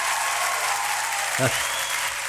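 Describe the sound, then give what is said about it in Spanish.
Applause on a radio program, a steady wash of clapping that holds an even level throughout, with a brief low voiced sound near the middle. “Un aplauso para usted.”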